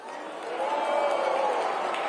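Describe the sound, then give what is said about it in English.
An audience reacting with disapproving murmurs, a dense crowd rumble that swells after a brief moment and then holds steady. “And see, the crowd wasn't totally into it. They were, whoa, whoa.”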